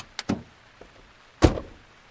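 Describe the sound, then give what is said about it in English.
A car door is handled as a woman hurriedly gets into her car: two quick sharp clicks, a faint tap, then one heavy thud that dies away quickly. “She ran to her car and got in.”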